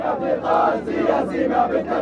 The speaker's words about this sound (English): The crowds come to express support for the unity agreement between Hamas and Fatah.